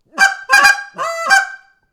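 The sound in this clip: Game call sequence of harmonic, honking calls: a cluck, a double cluck, a drawn-out moan and a final cluck, played alone and fairly loud.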